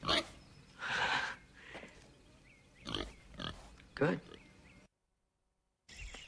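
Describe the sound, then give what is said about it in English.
A pig grunts and snorts in a few short, low bursts separated by pauses. The sounds are fairly faint, and there is a stretch of near silence before a final grunt. “You want to train the pig for the part? If you can part with the pig.”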